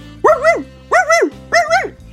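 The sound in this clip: A dog barking: three loud, drawn-out, tonal barks, each with a two-part wavering shape, spaced evenly with short pauses between them, heard alone with no talk.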